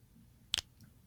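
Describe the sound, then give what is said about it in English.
A single crisp finger snap recorded as a percussion sample, short, bright and sharp, standing alone against a quiet background. “I'm gonna do some snaps. Let's listen to those snaps.”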